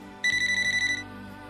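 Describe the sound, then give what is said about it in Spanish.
A telephone rings once with a bright, high, rapidly pulsing electronic trill lasting under a second, then stops, leaving a quiet background. “Uy, chicos, el teléfono. No lo quiero atender. No lo quiero atender.”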